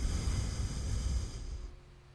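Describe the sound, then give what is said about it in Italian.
A slow exhale through the left nostril during alternate-nostril breathing practice, a soft, steady airy hiss that fades away near the end. “Chiudo la destra. Apro la sinistra, espiro.”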